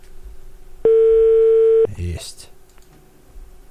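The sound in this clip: A telephone line tone sounds during a live call: one steady, mid-pitched beep lasting about a second, clearly louder than the quiet background, with voices following it.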